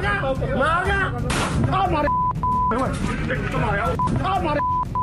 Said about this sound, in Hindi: पंजाब के मानसा में Facebook live में बहस के दौरान ये गोलीकांड की तस्वीरें हैं।